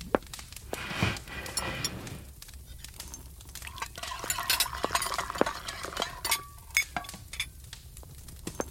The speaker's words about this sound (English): For now, can you set the table? Got it.